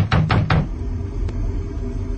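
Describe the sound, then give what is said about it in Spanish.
Three heavy, rapid knocks on a door land in the first half-second of a tense scene, followed by a low, steady rumble with no voices. “Los dramáticos golpes en la puerta paralizan a los aterrados sobrevivientes.”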